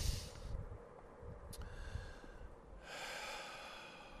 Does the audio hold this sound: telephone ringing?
no